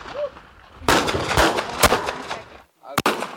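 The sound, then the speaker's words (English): Sharp gunshots ring out at a women's firearms training class: a few loud, crisp cracks over a sustained noisy wash, then a brief silence before one final abrupt shot. “Nearly 2 hours into their training, these women ready to pull the trigger. Slowly pull your trigger.”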